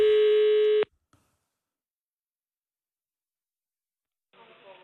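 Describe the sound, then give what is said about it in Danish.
Telephone tone as a call is placed to a police intelligence service. One steady, buzzing tone lasts just under a second, then cuts off into silence before a faint voice comes in at the end. “Derfor ringer vi til PET.”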